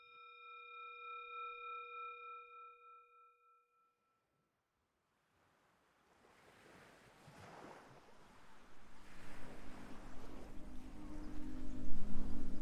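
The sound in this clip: Sea waves surge in after a steady tonal drone and a brief silence, the surf washing and hissing in a broad rush that builds gradually louder toward the end.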